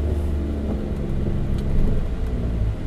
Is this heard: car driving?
yes